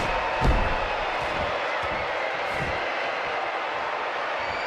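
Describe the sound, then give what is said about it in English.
Video game crowd going wild after a big maneuver: a continuous, loud roar with a brief thump near the start, sustained at a steady level throughout. “That was a huge maneuver. Wow, the crowd is fucking bananas right now.”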